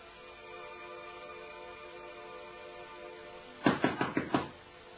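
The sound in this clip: Knocking on a door: five quick raps in a tight burst near the end, sharp and fairly loud, following a stretch of quiet, steady background hum with no talk.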